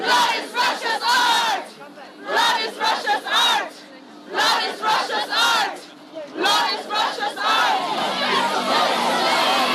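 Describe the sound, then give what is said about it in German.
Feminist activists from Pussy Riot and Femen chant a protest slogan in unison at the Russian pavilion, in loud, rhythmic bursts of massed voices separated by short pauses. The chanting runs into a continuous stretch at the end. “Die Aktivistinnen skandieren Blood is Russia's Art.”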